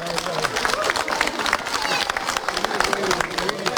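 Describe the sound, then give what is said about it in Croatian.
An audience claps for a children's dance, the Rašpa, performed by pupils of the Mali princ Montessori kindergarten in Pazin. Many sharp, overlapping hand claps make a lively, moderately loud burst that fluctuates but stays steady overall. “Nagradite i njih jednim velikim pljeskom.”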